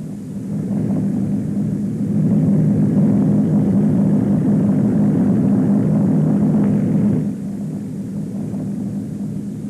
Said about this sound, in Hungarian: Repülőgép. Ha nem itthon volnék, megmernék esküdni rá, hogy orosz rata. Orosz gép? Aza, megismerem a hangját.